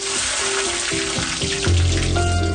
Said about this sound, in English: A piping hot pan. Ooh. A spoonful of butter melts gently across the surface. Throw in your diced onion and within seconds, the ingredients begin their transformation.